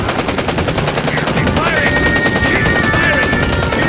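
Rapid machine-gun fire rattles in continuous, dense bursts from start to finish, loud and unbroken, with a thin high whine running through the middle stretch.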